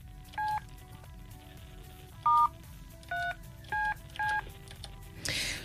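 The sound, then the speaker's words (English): Five telephone keypad tones beep one after another as a number is dialed. Each is a short, crisp, dual-pitched beep, separated by uneven pauses over a faint background hiss. “I'm going to dial Komojo now.”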